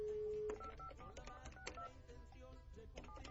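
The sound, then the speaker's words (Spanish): Faint DTMF keypad tones as a telephone number is dialed for a call. A short, steady tone is followed by a quick series of brief electronic beeps at varying pitches, all quiet against a low background hiss. “Déjale marco y a ver si nos recibe la llamada.”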